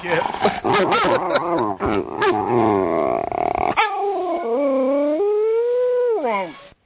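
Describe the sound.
A dog whining and grunting for her rope when it is put up out of reach: choppy, growly yips and grunts, then a long, high whine that wavers and falls in pitch.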